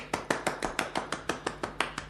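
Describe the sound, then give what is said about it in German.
One person claps slowly in a radio drama scene, twelve crisp, evenly spaced claps in a steady rhythm, fairly quiet with nothing else around them. “Ach, was ist das? Was geschieht hier? Wer klatscht denn da?”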